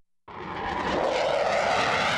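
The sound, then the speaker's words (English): Military aircraft roar over Guam. After a moment of silence the engine noise breaks in abruptly and holds as a loud, steady, broad rumble. “Like all residents of Guam, Tony Artero Sablon is inured to the sounds of military aircraft that drown out the street noise outside his urban home.”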